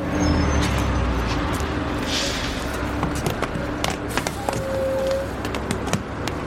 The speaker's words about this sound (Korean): 충무로 출판사 쪽으로 가는 버스가 눈앞에 선다. 버스 문이 열리고 몇 명은 앞으로 오르고 몇 명은 뒤에서 내린다.